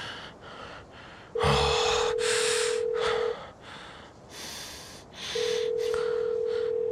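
Landline ringback tone while a caller waits for someone to answer: two long, steady, mid-pitched tones, each about two seconds, separated by a pause, with breathy sounds between them.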